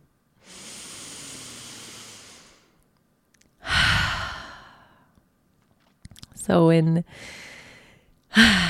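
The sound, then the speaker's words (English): A deep breath: a long, airy inhale, then a slow audible exhale like a sigh, followed by further short breathy sounds and a brief voiced hum. “How about a deep breath?”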